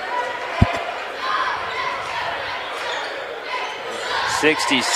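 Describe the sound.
A basketball bounces on a court at the end of a game. One sharp, loud thump stands out early over a steady background wash, with fainter sounds and voices later on.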